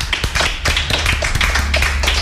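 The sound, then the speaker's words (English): Audience applause rises on cue from a host, a dense, steady patter of many hands clapping at an even loudness for about two seconds, with no voices standing out. “Everyone give a round of applause.”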